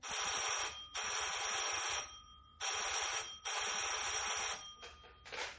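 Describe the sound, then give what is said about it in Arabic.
A telephone ringing in loud, bright electronic bursts: four long rings separated by short gaps, followed by a few fainter, clipped fragments at the end. No talking is heard. “تليفون”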